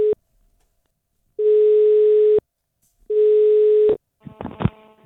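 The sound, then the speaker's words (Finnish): Ringing tone of an outgoing phone call: the tail of one tone, then two steady mid-pitched tones about a second long separated by silent gaps, loud and even, followed by a short burst of crackly noise on the line. “Ja nyt mä soitan Samille.”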